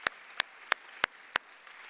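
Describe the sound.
Clapping from an audience welcoming guests at a church service: five sharp, evenly spaced claps in a steady rhythm over a quiet background.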